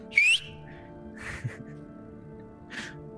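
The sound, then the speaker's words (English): A person's short whistle call to summon others, a quick bright tone rising in pitch at the start, followed by a few soft breathy bursts over a low steady hum. “I do the whistle that I can't do”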